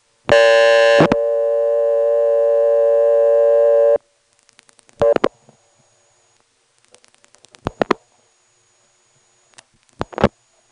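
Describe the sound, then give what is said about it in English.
Telephone busy signal on a talkable line of an independent phone company, heard while calling one's own number: a loud harmonic tone, then a steady tone held about three seconds, followed by a few short separate bursts and faint clicks. “Here I'm going to call my own number. You may notice callers coming in on the busy signal, which for an independent company is unusual because most independent busy signals are not talkable.”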